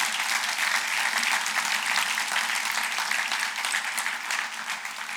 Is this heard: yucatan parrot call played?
no